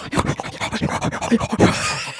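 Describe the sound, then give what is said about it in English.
A voice imitates a weird, breathy in-out noise: many rapid, rhythmic puffs of breath alternating in quick succession, fairly loud and without words. “he's making a weird noise, some sort of breathy in-out noise”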